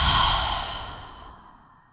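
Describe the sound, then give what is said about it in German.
One long, deep breath is exhaled through an open mouth during a guided breathing exercise, an airy, breathy rush that starts full and slowly fades away, heard alone. “Über die Nase einatmen. Halte deinen Atem oben. Dann öffne deinen Mund und atme alles wieder aus.”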